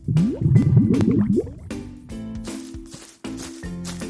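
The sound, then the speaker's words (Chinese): Water fills a large wooden tub with a bubbly, gurgling pour. Quick rising tones come first, then a steadier tonal wash that breaks off briefly near the end. “他用一个大大的木盆装满水，再把甲鱼医生们放进去。”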